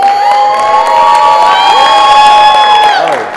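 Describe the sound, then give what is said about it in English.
Loud crowd cheering with high, sustained whoops and shouts greets a woman powerlifter in the 50-to-54 masters class after her 425 deadlift world record, holding steady for several seconds before easing slightly at the end. “Now look, I'll tell you what, she deserves applause for that.”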